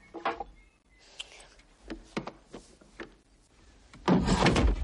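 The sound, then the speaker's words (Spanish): A door is barred shut with a series of dull wooden knocks and clunks, spaced unevenly. A louder, longer scraping rumble comes at the end. “atranca la puerta”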